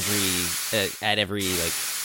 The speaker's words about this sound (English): floats backward away from the steam as it blasts out, and you are safe. But then going further down back the way you came, bursts of steam